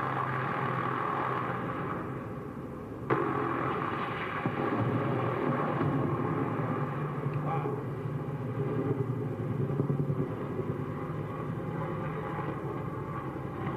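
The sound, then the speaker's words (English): Helicopter gunships flying, a loud, continuous rumbling roar with a dense, churning texture that holds steady throughout, with a brief sharp jolt early on and no voices. “There's your gunships. Hear that racket?”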